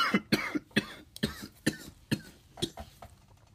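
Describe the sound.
Harsh coughing after inhaling too much smoke: many coughs in an uneven fit, some strong and some weaker, fairly quiet overall, with no speech.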